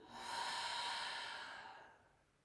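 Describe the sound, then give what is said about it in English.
A single long, soft breath during a guided breathing exercise, drawn in through the nose and let out through the mouth, swelling gently and then fading away with no talking. “Take a big breath in through the nose and out through the mouth.”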